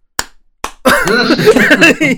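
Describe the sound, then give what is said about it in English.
One person claps twice, two sharp, isolated slaps spaced well apart, before a loud voice starts talking. “just clapping on his own.”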